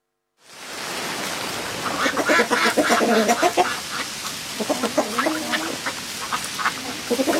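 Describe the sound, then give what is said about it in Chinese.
Ducks quack among chickens on a farm, in bursts of nasal calls that come in two clusters over a steady background hiss. “该死的艾米，他怎么还没有喂鸡鸭吃玉米？”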